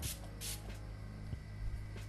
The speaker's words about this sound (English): Now that I'm done with this, I just have to set my face with some setting spray.